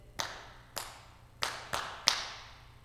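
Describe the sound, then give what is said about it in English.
Five crisp hand claps in a classroom call-and-response rhythm: two slow, spaced claps, then three quicker ones. Each is a sharp, moderately loud crack with a short decay, and there is no talk. “sometimes in my classroom, we would have claps. So like if the teacher did,”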